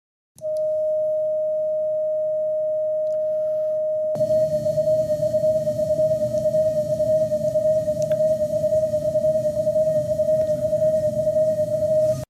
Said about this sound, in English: that generator is going to be put on the end of a string and swung around the head in a horizontal circle so that the sound approaches you and then recedes repeatedly over and over again